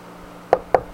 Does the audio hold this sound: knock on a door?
yes